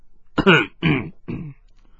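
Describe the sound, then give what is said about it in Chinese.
A dry cough clearing the throat, made in three short, rough, voiced bursts in quick succession, the last a little weaker than the first two, heard alone in quiet. “司徒孝干咳了一声”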